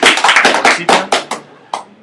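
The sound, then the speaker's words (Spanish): Brief applause in a comic book store, a quick rhythmic run of handclaps from a few people that thins out and ends with a couple of scattered claps. “Un aplauso para el joven, sí.”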